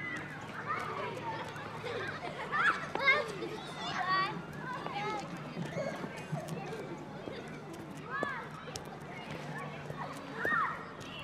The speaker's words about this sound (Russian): Дети играют на детской площадке.